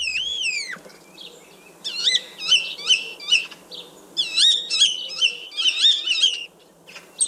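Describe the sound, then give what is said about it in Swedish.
A common starling sings: an opening slurred whistle, then many quick repeated chattering and clicking phrases, high-pitched and varied, rising and falling in loudness over low background noise. “Och det här det är alltså staren, så den har ett eget ljud också”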